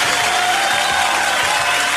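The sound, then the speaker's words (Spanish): Applause from a crowd honouring people who compete in sporting events, a dense, continuous wash of clapping with faint cheering mixed in, loud and even throughout the two seconds. “Que se oiga masivo el aplauso.”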